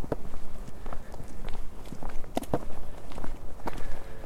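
Footsteps of people walking make an uneven run of many soft thuds at a steady pace. A few sharper clicks stand out among them.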